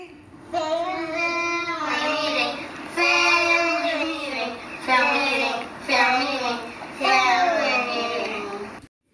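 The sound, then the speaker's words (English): Children singing a family meeting song together: bright, high young voices carry a melody in several sung phrases with short breaks between them, loud and clear throughout. “So what you just heard was my kids singing our family meeting song.”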